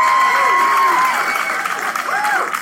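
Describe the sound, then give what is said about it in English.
Audience applause fills the hall at the Psychedelic Science 2017 conference, a dense, steady wash of clapping that runs the whole time, with voices and whoops rising through it. “How about a hand for that?”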